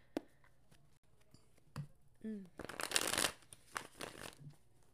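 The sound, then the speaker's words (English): Tarot cards being shuffled by hand: quiet, crisp riffles and soft slaps in uneven bursts, with the densest flurry of riffling near the middle. “I want to pull a few tarot cards. I just couldn't not do it, you guys.”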